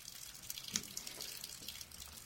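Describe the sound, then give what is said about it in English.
Rainwater drips from an awning at an airport as a spring storm finishes. A faint, steady patter of many small drips and trickles carries on throughout, with one slightly louder splash early on. “under a dripping awning as a spring storm finishes up”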